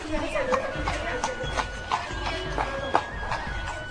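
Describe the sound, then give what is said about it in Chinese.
Clip-clopping hooves of a horse-drawn carriage approaching through the ancient city of Petra, a steady, even rhythm of hoof strikes under a constant murmur of people talking. “我们听到现在迎面而来的就是马车的声音。”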